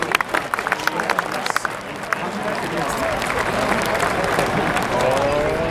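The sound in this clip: A golf crowd at a major tournament cheers and claps after a shot lands on the green a few feet from the hole; scattered claps build into a loud, sustained roar while a commentator talks throughout.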